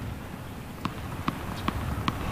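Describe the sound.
A ball is bounced four times at a steady, even rhythm before a point, each bounce a short dull thud over constant background noise.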